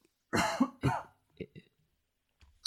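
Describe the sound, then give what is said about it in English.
Two harsh, loud coughs from a person in quick succession, followed by a few softer, brief throat and breath sounds and a short pause. “just having a cough.”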